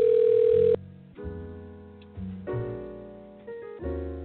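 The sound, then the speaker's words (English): A steady telephone dial tone holds for under a second, then gives way to a run of shifting tones as a call is dialed. Each step starts sharply and then gently fades. “So I'm dialing up Brother Jamil right now”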